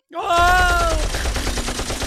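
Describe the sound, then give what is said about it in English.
Machine gun sound effect: a dense, continuous burst of rapid gunfire filling the whole moment, with a wavering tonal cry riding on top near the start. “Let's see if I remember to put weird machine guns and shit underneath it.”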